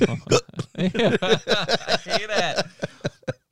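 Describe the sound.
A person imitates hiccups with their voice, making many short, sharp gulping sounds in a quick, uneven series, with no other talk.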